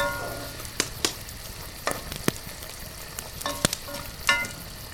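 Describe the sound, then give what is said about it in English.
Bacon sizzles in a frying pan, a steady, crackling hiss scattered with sharp little pops of spitting fat, fairly quiet and continuous throughout. “The air is filled with the smell of bacon sizzling in the pan.”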